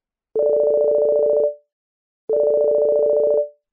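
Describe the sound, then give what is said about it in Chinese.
A mobile phone rings in two identical electronic bursts of about a second each, separated by a pause. Each burst is a steady, buzzing two-note tone, and no voices are heard. “小梅的手机响了”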